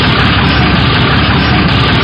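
A bus engine runs with a loud, constant rumble and broad mechanical hum that holds steady throughout, with no talk over it.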